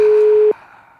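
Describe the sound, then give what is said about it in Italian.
A phone call reaches an answering machine with a single steady, mid-pitched telephone tone. It lasts about half a second, then gives way to a faint, fading line hiss. “Risponde la segreteria telefonica. Dopo riproviamo.”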